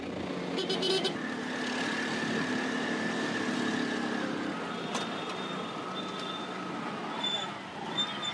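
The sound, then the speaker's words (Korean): A tuk-tuk speeds along the road, its engine a steady droning rumble blended with rushing road and wind noise, while a few brief vehicle horn toots sound over it. “조급한 제 마음을 아시는지 엄청난 속도로 질주하는 툭툭 기사님.”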